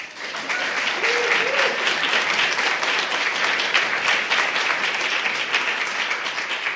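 An audience applauds to welcome a performer at a poetry and music reading. Dense, steady clapping from many hands carries on without a break for the whole stretch.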